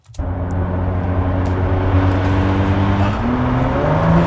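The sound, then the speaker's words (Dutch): A Ford GT sports car's engine roars loudly and steadily throughout. Its pitch climbs in the last second as the revs rise. “Hij maakt best herrie inderdaad. Hè. Er is wel een hoop bijgeluiden. Ja, dit is de Ford GT.”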